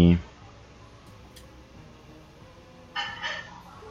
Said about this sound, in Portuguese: Oh, caramba. Cliquei no negócio errado aqui.